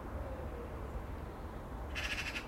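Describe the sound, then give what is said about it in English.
A bird near a car chatters its beak in a brief burst of rapid clicking near the end, faint over a steady low background hiss. “It was chattering its beak. It was made this wonderful acoustic sound, and then these wee vocal murmurs.”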